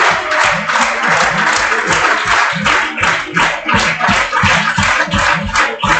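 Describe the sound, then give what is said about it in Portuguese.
People applaud, with many hands clapping in a dense, continuous, loud stream and no single voice standing out. “Muito bem. Palminhas. Palminhas.”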